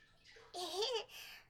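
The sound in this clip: Water splashing in a bath as someone's back is washed: a short soft wash of sloshing noise, about a second and a half long, with a faint murmuring voice sound over it.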